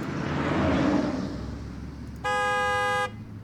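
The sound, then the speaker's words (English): A single sustained car horn blast from an Audi doing donuts near the front of a library. It follows a swelling and fading rumble of engine and road noise and holds at an even, bright pitch for under a second. “donuts in an Audi? Keep honking!”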